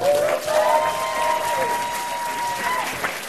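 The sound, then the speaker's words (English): An audience applauds as a speaker is welcomed onto a stage, with dense, steady clapping throughout and a long sustained tone running over much of it. “So please spare no expense and spare no sound in welcoming Sydney to the stage.”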